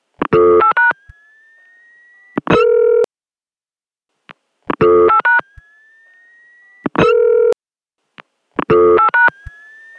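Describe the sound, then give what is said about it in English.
A recorded telephone call dialing out through a new electronic switching office in 1980: loud bursts of stacked dialing tones with a thin, slightly rising squeal between them. The tone-and-squeal pattern repeats twice. “So let's just play that last call again, the dialing out part of it.”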